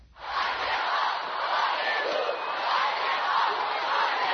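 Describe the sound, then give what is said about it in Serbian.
Young Partizan football fans chanting and cheering in the stands of the stadium in Humska Street: a dense, continuous crowd roar that rises quickly and then holds steady. “Slika i zvuk potpuno iskrenog navijanja”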